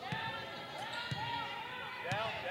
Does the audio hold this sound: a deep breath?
no

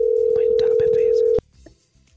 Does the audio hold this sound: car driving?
no

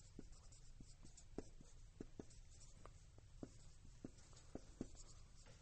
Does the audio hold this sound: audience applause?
no

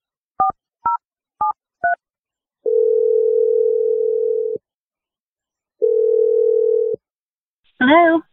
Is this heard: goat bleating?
no

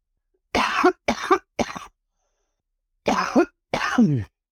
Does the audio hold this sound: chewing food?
no

